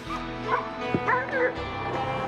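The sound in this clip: Dogs bark, yip and whimper while running an outdoor obstacle course, with high-pitched yelps and whines close together over a steady background.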